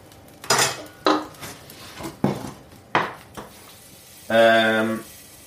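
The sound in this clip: Drained spaghetti tipped into a pan for a chilli and garlic tenderstem dish, with several sharp clatters of utensils against the pan and a short voiced sound near the end.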